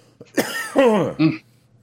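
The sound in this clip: Harsh coughing after smoking weed: a short, loud fit of several rough, throaty coughs in quick succession, heard alone.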